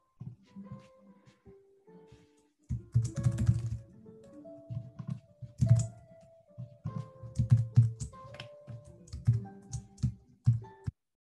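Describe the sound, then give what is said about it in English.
Fingers type on a computer keyboard to write a message in an online meeting chat, with irregular bursts of quick clacking keystrokes broken by short pauses, fairly soft throughout. “I'm going to type mine in the chat, actually.”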